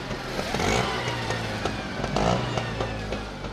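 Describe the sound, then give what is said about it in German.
A rickshaw engine drones steadily on the way to an old age home in Puttaparthi. It is a low, rough motor hum with a slight swell in revs, with no voices over it. “Dorthin wollen wir jetzt mit unserer Rikscha fahren.”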